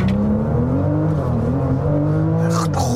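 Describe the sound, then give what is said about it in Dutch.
A car engine roars under hard launch-control acceleration through an eight-speed Tiptronic automatic gearbox, a loud continuous drone whose tone climbs early on, with a brief burst of rougher noise near the end. “Meteen launch control doen. Is de stand oké? Voet op de rem, voet vol gas.”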